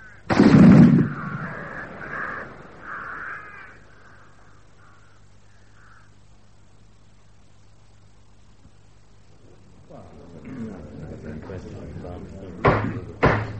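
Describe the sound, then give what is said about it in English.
An honor guard fires a gun salute volley: one loud, sharp blast with a ringing tail that fades over several seconds. A long quiet stretch follows, then rustling and a few sharp clicks. “Guard of Honor! Set! Present! Fire!”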